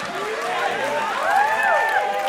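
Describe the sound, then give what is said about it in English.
A live studio audience cheering and making noise, a sustained roar of crowd noise topped by several whistles that swoop up and down in pitch. “why not do it in front of a live studio audience? Let me hear you guys make some noise.”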